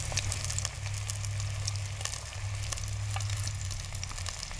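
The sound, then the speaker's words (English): Fish coated in a dry mix seasoned with garlic salt and black pepper frying in a deep fryer, giving a steady, dense sizzle with constant crackling and popping throughout, with no talk. “Once you've got your ingredients ready and your fryer set up, throw your fish into the Ziploc bag, toss them around, and fry them up.”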